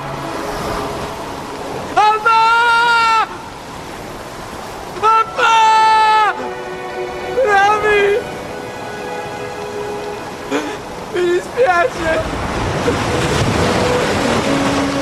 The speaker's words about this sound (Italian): Solo la pioggia, le onde rapaci dell'oceano scuro e i rottami galleggianti della tragedia.